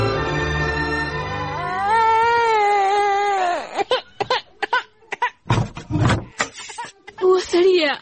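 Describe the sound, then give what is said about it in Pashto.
A sick infant, sleepless and refusing to feed, cries with a long wavering wail that slides up and down in pitch, followed by choppy, broken vocal bursts. “څنګه ناروغ دی بابا؟ ماشوم خو هسې هم ژاړي.”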